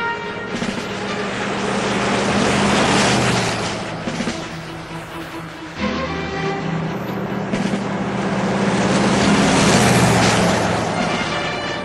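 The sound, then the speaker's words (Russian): A truck drives across the road with a loud, continuous engine rumble and a steady droning hum. The noise swells twice, with a short dip in between, and no voices are heard. “На перерез по дороге проезжает грузовик. Вот он!”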